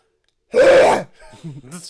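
A person hawks to clear mucus from the throat in one loud, rasping, half-second burst, followed by fainter throaty voiced sounds.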